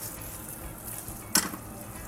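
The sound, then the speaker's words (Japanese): Napolitan spaghetti sears in a frying pan with a steady, hissing sizzle. A single sharp clatter of utensil on pan briefly rises above the sizzle partway through. “ちょっとナポリタンなので最後焼き付けをしていきます。”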